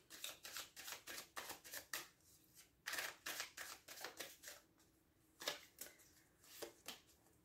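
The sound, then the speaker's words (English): Tarot cards being drawn from a deck: many quick, crisp papery flicks and snaps in uneven bursts, faint and alone without talk. “Okay, so I'm going to take three cards for you guys.”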